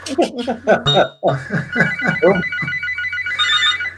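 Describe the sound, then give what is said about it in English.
A telephone ringtone sounds in bright, repeating electronic tone bursts that begin after a brief pause, following a man's voice at the start and continuing steadily and fairly loud to the end. “sorry, that's my phone.”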